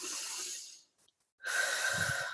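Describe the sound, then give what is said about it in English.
Deep breaths taken during a guided meditation: two long, soft airy breaths, quiet and unhurried, separated by a short silent pause. “we invite you to take a few deep breaths, feel yourself arriving,”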